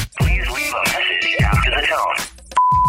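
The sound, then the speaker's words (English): A voicemail recording beep follows a stretch of talk: one steady, fairly high tone that starts abruptly and holds at an even pitch and loudness to the end. “Call 833-YO-DUMMY. Please record your message. This is the voicemail.”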